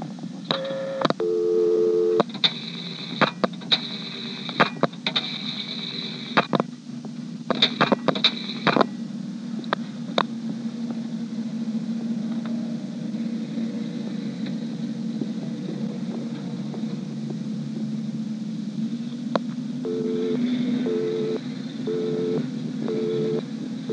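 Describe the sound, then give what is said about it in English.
A telephone dials a five-digit number to a Centrex line and then times out. Bursts of tones and clicks fill the first several seconds, a steady line hum follows, and short repeating tones sound near the end. “I'm now going to dial 67013 and let the director for the Centrex time out.”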